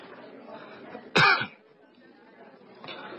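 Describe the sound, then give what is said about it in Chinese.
A single awkward cough bursts out sharply and loudly, brief and abrupt, over a faint low background murmur. “吴绍周尴尬地咳嗽了一下”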